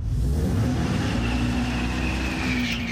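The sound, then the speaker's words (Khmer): An electric Dodge Charger revving with a synthetic, engine-like roar, loud and continuous, with a steady low hum running beneath the broad rushing sound. “សំឡេងនេះដូចជាសំឡេងម៉ាស៊ីនរថយន្តធម្មតាអញ្ចឹងប៉ុន្តែអ្វីដែលធ្វើឲ្យរថយន្ត Dodge Charger ប្រភេទថ្មីដំណើរការមិនមែនម៉ាស៊ីនដើរដោយសាំងនោះទេនេះគឺជារថយន្តអគ្គិសនីមួយ”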